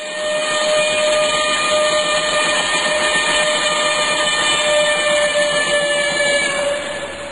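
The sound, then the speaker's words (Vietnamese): A steam train's whistle sounds as it halts and pulls away: one long, loud, sustained, shrill tone with a hissing steam layer underneath, fading slightly at the end. “Xe lửa Sài Gòn xuống đậu rồi chạy đi. Cách một lát, xe lửa Mỹ Tho cũng lên đậu rồi chạy đi.”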